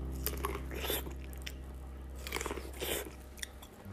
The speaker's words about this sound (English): But right now I'm gonna do an auditorial mukbang of me eating corn.